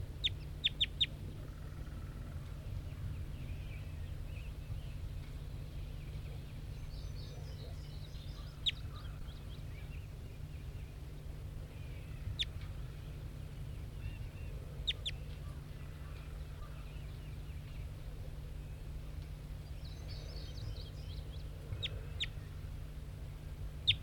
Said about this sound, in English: Recording bird 5-9.